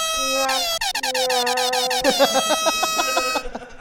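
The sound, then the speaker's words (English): Air horn sound effect blaring a loud, brassy tone that breaks into many rapid, stuttering short blasts before a final run of choppy honks, heard alone without talk. “I know where the air horn is. Yeah. I use it excessively in the show.”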